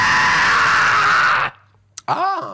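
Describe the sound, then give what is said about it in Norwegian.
A recorded scream used as an emergency signal: a loud, harsh, noisy cry that holds for about a second and a half, then cuts off abruptly. After a brief pause come a click and a short voiced sound. “dette var jo skriket som du lagde, som vi skulle bruke som nødsignal”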